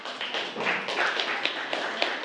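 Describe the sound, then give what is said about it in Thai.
Students in a physics class clap for a classmate who answered a problem. A brief patter of hands has a few sharper, distinct claps standing out in an uneven rhythm. “ปรบมือกับเพื่อนด้วยครับ”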